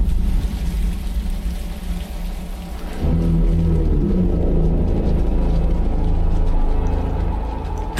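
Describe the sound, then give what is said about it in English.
Trailer audio for the film The Batman plays as a dense, continuous wash of rain-like hiss over deep rumbling, growing slightly louder and fuller partway through, with no voices. “We're going to take a listen to the trailer for The Batman, and then we're going to come back and give you a review.”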